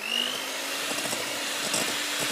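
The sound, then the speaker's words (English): An electric hand whisk runs at a constant speed, giving a steady high-pitched motor whir without pauses. “I'm even going to plug the whisk in.”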